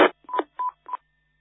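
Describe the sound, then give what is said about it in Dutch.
Telephone keypad touch tones, a few short, clear DTMF beeps spaced about a third of a second apart and heard alone against silence. “Ik zal nog eventjes Frits bellen zo.”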